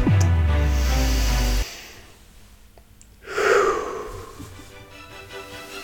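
A deep breath is drawn in as a single loud, airy inhalation, following a low droning tone and then a moment of near-silence.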